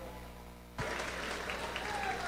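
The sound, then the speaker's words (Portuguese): Applause for a musical group breaks out suddenly after a low, steady hum, then carries on as a dense, even patter of many hands. “Aplausos, muitos aplausos”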